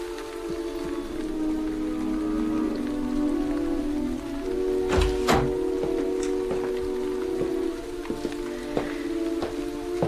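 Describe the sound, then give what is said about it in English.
Steady rain pours down in a continuous, dense hiss with scattered sharper drip-like splashes, most noticeable around the middle, over a faint sustained low hum. “into a steady rain. I imagine I hear sleigh bells. I think that Xena and Jothan might overtake me. I set my face against the rain and urge my horses on.”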